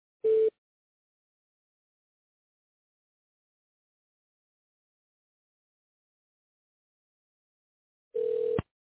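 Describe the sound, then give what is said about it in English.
Voicemail recording tone on a hospital phone line: two brief, steady, mid-pitched beeps, one at the start and another about eight seconds later, with silence between them. “To leave a message, begin speaking at the tone. When finished, push star, then pound.”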